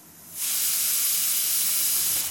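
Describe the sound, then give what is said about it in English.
Pressure cookers cooking rice and dal khichdi release a loud, steady hiss of steam that cuts in abruptly after a quieter moment and holds evenly to the end. “Pressure cookers around the city hiss and fizz, carrying the promise of khichdi days.”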